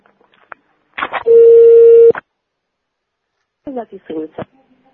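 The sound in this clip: A telephone call tone heard while calling back a housing maintenance dispatch office: one steady, low electronic beep about a second long, with short clipped bursts of voice before and after it.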